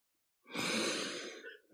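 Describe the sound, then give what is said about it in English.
A single deep, aggressive inhale, a harsh breathy rush lasting about a second and fading at the end, heard alone and fairly quiet. “such an aggressive inhale. it's like you were breathing in deeply”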